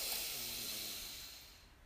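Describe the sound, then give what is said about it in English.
A slow, deep breath during a guided breathing exercise, heard as a soft, airy hiss that gradually fades, with no talking. “Deep breath in and out.”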